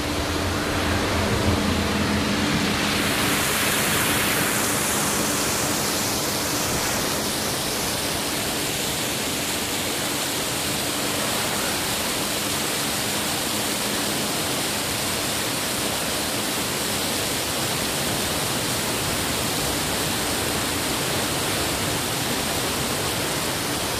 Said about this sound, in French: pourrais entendre la mer. On est en Méditerranée.